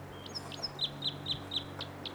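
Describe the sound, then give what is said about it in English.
A bird calls from a tree above a camp in a regular series of short, high chirps at an even, quick pace, fairly faint over a low steady background. “Bird's right in the tree above the camp.”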